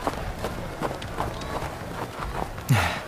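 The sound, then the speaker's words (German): Reindeer galloping along a race track: many quick hoofbeats in a steady, rapid rhythm, with a louder burst of sound at the end. “Da kommen schon die nächsten Rentiere angaloppiert.”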